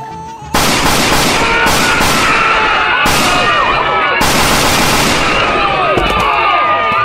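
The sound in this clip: Gunfire erupts during a police confrontation, starting abruptly after a brief quiet moment and continuing as loud, sustained volleys of many rapid shots with no pause until the end.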